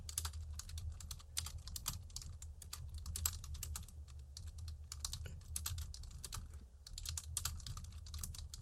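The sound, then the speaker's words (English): Someone types quickly on a computer keyboard to jot down a note. Many rapid, irregular keystrokes arrive in dense bursts, faint and with no voices. “What market? I'm going to write it down quickly.”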